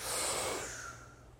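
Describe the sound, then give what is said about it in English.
A deep breath drawn in during a guided breathing exercise: one long, airy inhalation that starts loud and fades steadily over about a second and a half. “we're going to take a deep breath in.”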